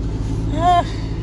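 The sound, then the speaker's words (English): A car drives around a building. A low, steady engine rumble runs throughout, and a brief voice cuts in partway through. “Fuck it, I'll just drive around the whole goddamn building, fuck it.”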